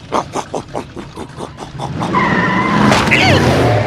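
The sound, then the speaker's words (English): A supercharged riding mower races with a string of rhythmic chugging pulses, then breaks into a loud, sustained skidding screech. “I did it! I supercharged my riding mower!”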